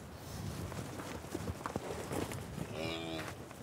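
Cattle on a farm, with cows and a bull present: a single short, low moo rises near the end over a steady, fairly quiet background of rustling noise.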